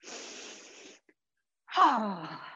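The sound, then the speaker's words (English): A deep breath taken during an exercise warm-up: a breathy inhale of about a second, a short pause, then a louder, partly voiced exhale like a sigh. “One deep breath.”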